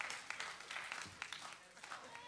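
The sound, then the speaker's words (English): Hand clapping of praise from a church audience during a service, with scattered sharp claps rising out of a looser wash of applause, mixed with voices throughout. “Come on, give God a hand clap of praise here today.”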